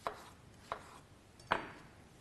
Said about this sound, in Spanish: Ahora voy a ponerle el pepino.